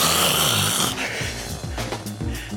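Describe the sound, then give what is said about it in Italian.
Loud, rasping snoring from a sleeper with sleep apnea. One long, harsh snore gives way to a few shorter, choppy snorts. “russare con l'apnea”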